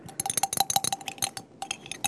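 A thickening agent being stirred into a liquid product mixture: a utensil clinks rapidly against a container in many light, irregular taps, pausing briefly before resuming.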